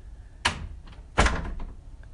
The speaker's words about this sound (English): So I walk in my house. Here I open the door